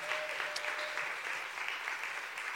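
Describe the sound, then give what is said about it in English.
Applause from a Gateway Church audience welcoming a missions pastor to speak: a steady, fairly quiet patter of many hands clapping that continues evenly throughout. “Whoever cheered for me, I appreciate that.”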